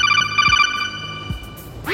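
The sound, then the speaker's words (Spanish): A phone ringtone signals an incoming call with a steady electronic ring of bright, layered tones for about a second. It fades out, and a quick rising electronic sweep follows at the end. “Todo estaba sospechosamente tranquilo y entonces recibí la llamada.”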